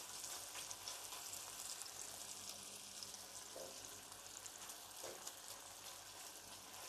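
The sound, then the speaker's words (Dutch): Thick-cut bacon sizzles in a frying pan with a steady, faint crackle of spitting fat and no breaks or talk. “als dit eh, spek zo meteen lekker uitgebakken is, dan haal ik het uit de pan”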